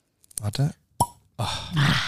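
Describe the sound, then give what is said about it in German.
A single hollow cork pop as a bottle of red Blaufränkisch wine is opened, short and sharp, set between longer stretches of other vocal sounds. “ist schon mal am Flasche öffnen. Einfach machen. Das Geräusch kennen wir doch.”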